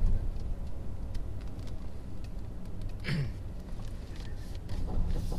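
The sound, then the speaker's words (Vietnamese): A car is driven and pulled over to park at a roadside: a steady, low engine rumble runs throughout at a fairly faint level, with a brief sharper noise in the middle. “Lái qua bên lái thẳng bên kia. Rồi đậu đậu bên này.”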